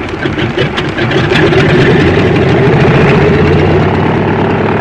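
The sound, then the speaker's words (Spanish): A small aircraft's engine runs loud and steady as the plane speeds down the runway to take off, a constant low droning roar with a rough, throbbing texture and no voices. “el pequeño aparato se deslizó velozmente por la pista y en unos segundos alzó el vuelo”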